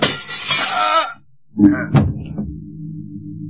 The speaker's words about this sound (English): It came from outside through the window that revolver shot.